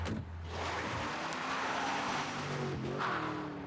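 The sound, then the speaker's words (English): A car speeds off, its engine roaring loudly and continuously as it accelerates, with a low hum that shifts throughout; no voices are heard. “As Jack gets out of the car, Cash speeds off.”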